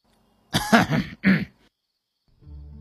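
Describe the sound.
A man coughs, a rough throat-clearing cough in two quick bursts, followed by near silence.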